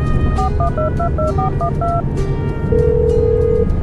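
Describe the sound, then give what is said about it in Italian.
Touch-tone keypad beeps from a telephone dialing a call home: a quick run of short dual-tone presses, then one longer steady tone, all over constant low background noise. “Se non le dispiace faccio una chiamata a casa.”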